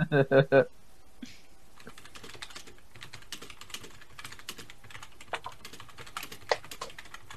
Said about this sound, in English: Everybody type down. Everybody type, put down on your bingo card, furious typing.